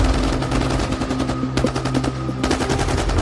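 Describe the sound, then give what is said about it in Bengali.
Submachine gun fire from commandos shooting into a cave after a dynamite charge blasts open a steel door: a dense, rapid, rattling burst of shots that runs almost continuously, over a steady sustained tone. “প্রথমেই তারা submachine গান থেকে এক ঝাঁক গুলি চালান”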